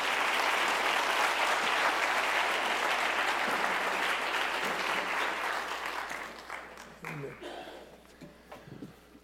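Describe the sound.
Church audience applauding to welcome a visiting couple: dense, loud clapping that holds steady for several seconds, then thins and tapers into scattered claps and faint voices.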